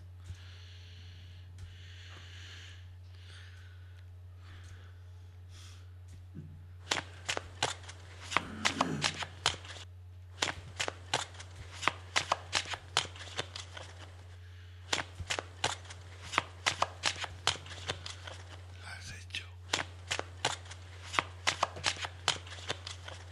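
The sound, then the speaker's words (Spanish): Playing cards being shuffled carefully by a fortune teller before a reading. Many crisp, rapid card snaps and riffles come in uneven bursts over a steady low hum, quieter at first and then denser and louder. “Nuestro amigo el brujo barajea las cartas cuidadosamente.”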